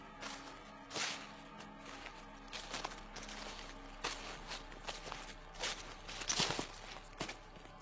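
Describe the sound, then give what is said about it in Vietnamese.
Footsteps crunching through leaves in a garden at night, many rustling, uneven steps under a faint background hiss. “Tiếng người đi bộ sau vườn dẫm lên lá cây sột soạt lại truyền tới.”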